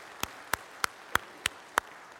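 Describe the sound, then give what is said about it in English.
A church audience claps together in praise, giving six sharp, evenly spaced claps in a steady rhythm with quiet between them and no talk. “Let's give the Lord Jesus Christ a hand clap of praise today.”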